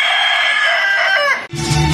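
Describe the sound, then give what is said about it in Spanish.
A rooster crows in one long, loud call with wavering pitch. The crow is cut off abruptly by a different, louder sound. “¡Súpele, mi gallo! ¡Hola, Vicente! ¡Canta de bonito!”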